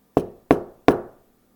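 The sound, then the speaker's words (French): Three firm knocks on a door, spaced evenly in a quick rhythm. Each is a solid low thud with a short decaying resonance, heard alone with no talk. “Il frappa à la porte du manadier”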